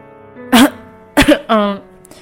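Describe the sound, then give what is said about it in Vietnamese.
A man clears his throat with a slight cough, a few short, raspy voiced bursts in quick succession, fairly loud and with no talk around them. “anh húng hắng ho”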